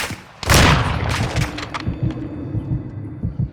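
Rifle gunfire from a video game shooting battle. A sudden loud blast is followed by a rapid series of shots and booming, rumbling reports that keep firing in uneven bursts.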